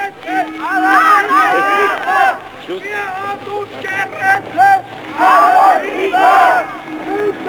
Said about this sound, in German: Ihr hört es, wie sie rufen. Nicht die, die marschieren, die gehen stumm.